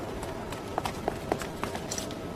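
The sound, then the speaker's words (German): Running footsteps of a man fleeing on foot with a pursuer behind, a few quick, faint steps over a steady noisy background. “Jacek rennt los und wird von Heidrichs Fahrer Klein mit gezückter Pistole verfolgt.”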